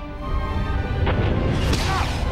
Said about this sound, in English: A warhead explodes over the bubble.